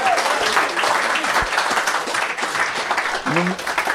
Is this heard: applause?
yes

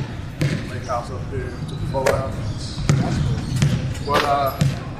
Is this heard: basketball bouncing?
yes

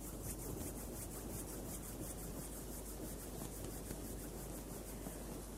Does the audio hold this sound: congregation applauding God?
no

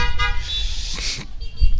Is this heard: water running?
no

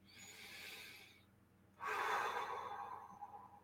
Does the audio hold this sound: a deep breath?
yes

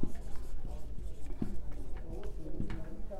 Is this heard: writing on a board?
yes

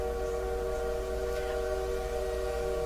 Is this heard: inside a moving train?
yes

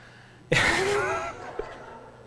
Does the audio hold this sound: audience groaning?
yes

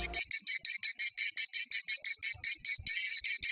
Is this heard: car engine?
no

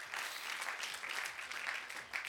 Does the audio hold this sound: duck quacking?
no

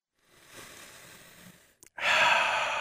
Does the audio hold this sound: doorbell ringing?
no

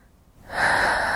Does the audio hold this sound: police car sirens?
no

